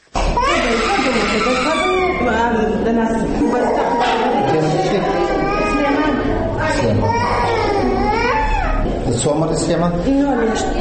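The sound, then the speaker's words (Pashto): Infants cry in the children's ward of Mirwais Hospital in Kandahar, where children with seasonal respiratory illnesses are treated. Loud, wavering wails rise and fall and overlap continuously from start to end. “دا د کندهار په میرویس روغتون کې د ماشومان واټ دی.”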